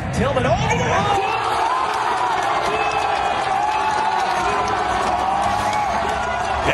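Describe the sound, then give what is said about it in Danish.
Football fans roar and cheer at a big-screen viewing event in Seattle after a USA goal, a dense, sustained wall of crowd noise with whoops and mixed voices throughout. “Og han har stået til et storskærmsarrangement i Seattle og altså optaget videoen af USA's mål. Det lyder sådan her.”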